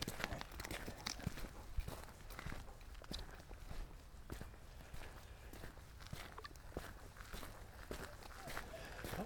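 Footsteps on a wide forest trail, an old Forest Service road closed to cars, on the Leatherwood Creek Loop near Toccoa, Georgia. The steps are many, steady and gritty, with a fairly even walking rhythm throughout.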